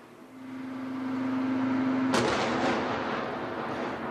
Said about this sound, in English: Une violente déflagration ébranle l'hôtel.